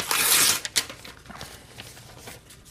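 An envelope ripped open by hand: a loud rasping tear of paper in the first half second, then a couple of short crackles and faint rustling that fade out.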